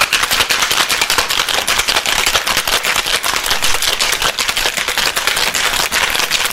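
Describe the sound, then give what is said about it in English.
A cocktail being shaken by hand gives a loud, fast, continuous rattling clatter that stays steady and busy for the whole clip, with no talk over it. “Wanted to give it a good shake. Give it a good shake.”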